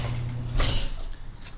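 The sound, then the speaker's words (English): Squeaky garage door opening with a creaking, grinding mechanical scrape, and a sharp louder burst of noise partway through before the motion fades. “We open up the garage door. Do do do do do do. Squeaky.”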